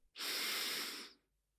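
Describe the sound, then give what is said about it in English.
One long, deep breath in, a soft, airy hiss that swells quickly, holds for about a second, then fades into silence. “Take a deep breath in.”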